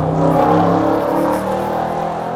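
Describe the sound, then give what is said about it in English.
A very loud car drives past on a main road, its engine and tyre roar filling the whole clip at a steady level and easing off slightly toward the end. “as a very loud car goes past”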